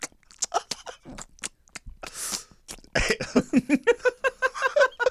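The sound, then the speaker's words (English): Wet crunching, sucking and chewing of a ring pop hard candy, made close and deliberately loud: scattered short clicks and smacks at first, one longer noisy burst, then a steady, rhythmic run of many crunchy mouth sounds. “Let me get some ASMR real quick. Nobody eats a ring pop like that. Nobody eats a ring pop like that ever. I'm trying to ASMR it up.”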